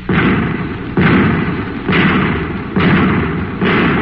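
Five anti-tank shells are fired in turn, each one a loud, booming blast. The blasts come at roughly even intervals of about a second, and a heavy rumble carries on between them.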